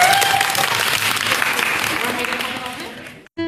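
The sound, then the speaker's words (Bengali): Applause from an audience cheering a team that has just won a college contest round: dense, loud, sustained clapping that tapers slightly, breaks off briefly near the end, then resumes. “তো একটা জোরদার তালি হয়ে যাক তোমাদের জন্য।”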